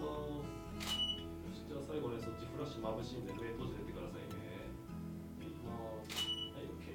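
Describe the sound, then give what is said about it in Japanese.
Camera shutter clicks as photos are taken of a person's posture during a fitness trainer session, two sharp, faint clicks several seconds apart beneath steady talking. “今撮った写真がすぐにあのモニターの方に映し出されますので、これをモニターでトレーナーとチェックをして”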